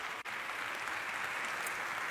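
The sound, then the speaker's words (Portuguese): A church audience applauding during a worship service: soft, steady, dense clapping from many people, held at a constant low level from start to finish. “Você quer aplaudir ao Senhor?”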